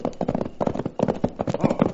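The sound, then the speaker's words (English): A horse gallops with rapid, rhythmic clip-clop hoofbeats in quick clusters, strong and steady across the whole stretch. “there's a horse coming. There sure is a horse coming, and a man I'm not looking to see is riding it.”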